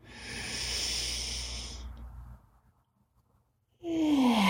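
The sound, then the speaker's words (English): An airy inhale through the nose during a guided breathing exercise: a steady, breathy hiss lasting about two seconds, then fading into near silence. “We're going to breathe in through the nose and out through the mouth. In we go.”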